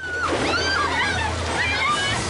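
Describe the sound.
Water gushes out of porthole-style windows shot out of a wall: a loud, continuous rushing slosh over a low rumble, with no break across the whole stretch.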